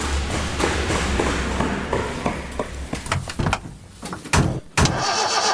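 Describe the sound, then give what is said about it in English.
A car engine cranks over and over without catching, a rhythmic whirring turnover with a few harsher bursts near the end; the car has a fault and won't start. “Man, I don't know. I won't start. Hey, dude, it's got that virus. Excuse me. Your car sounds pretty sick.”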